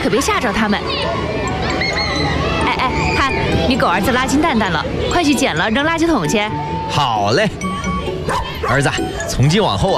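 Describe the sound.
Dog barking and yipping many times in a residential compound with children playing, the sharp barks mixed into loud, continuous voices talking over them.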